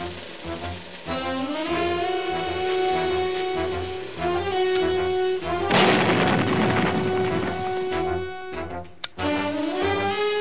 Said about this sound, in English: I use my cufflink grenades.